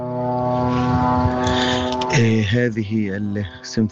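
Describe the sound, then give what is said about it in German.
Military drones flying constantly over Gaza give a loud droning propeller hum. It holds a steady buzzing pitch for about two seconds, then wavers and turns uneven, rising and dipping in loudness toward the end. “Das ist die nervige Symphonie, mit welcher die Kinder morgens aufwachen und abends schlafen gehen und die ihnen die Konzentration raubt. Die israelischen Drohnen, die Gaza ständig überfliegen.”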